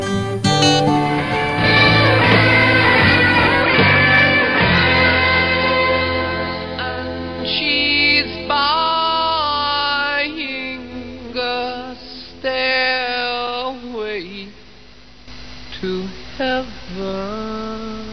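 Ending of a hard rock song: loud, dense full-band playing at first, then long sustained sung notes with vibrato over sparser backing, the level dipping briefly near the close.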